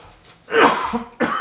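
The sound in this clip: Coughing fit after choking: two harsh, loud bursts of coughing separated by a brief pause, with no talk over them.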